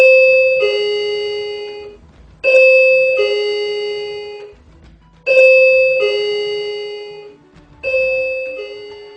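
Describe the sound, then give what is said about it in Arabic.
A care home's electronic doorbell rings four times, each ring a clear two-tone ding-dong, a higher note falling to a lower one. The bright, loud chimes ring out alone and decay between presses. “بعد كده سمعت الجرس بتاع الدار بيرن.”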